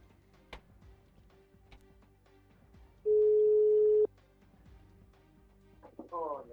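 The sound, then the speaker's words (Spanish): A telephone ringback tone on an outgoing call sounds as a single steady, mid-pitched beep lasting about a second, with people talking quietly around it. “¿Llama? Sí, está llamando.”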